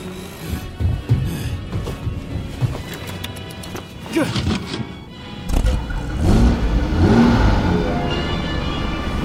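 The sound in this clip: A car engine cranks and starts, then revs into a louder, sustained roar through the second half, amid busy clattering noise.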